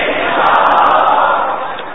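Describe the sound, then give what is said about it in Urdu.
Crowd shouting a religious slogan in unison at a weekly Sunnah gathering, one loud, sustained roar of many voices held for about two seconds. “آواز کیوں دب گئی آپ کی؟ ارے اور زور سے نعرہ لگاؤ.”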